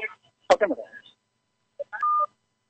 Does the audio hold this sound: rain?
no